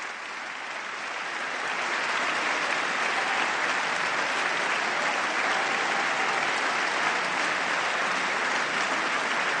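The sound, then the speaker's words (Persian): Applause fills the US House of Representatives chamber in Congress: dense, continuous clapping that swells in the first seconds and then holds steady and loud with no talk over it. “آنچه را که شما شنونده عزیز میشنوین کف زدن های حضار در مجلس نمایندگان هست و کانگرس آمریکا.”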